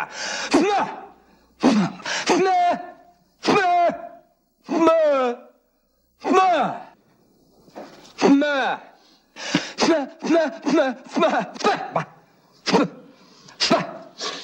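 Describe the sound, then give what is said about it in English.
Strained, voiced grunts and groans from a person forcing pressure inside the head to clear the ears: many short bursts with wavering, sliding pitch in an uneven rhythm. “I'm trying to clear up my ears. You create a pressure inside your head. It opens up the eustachian tubes.”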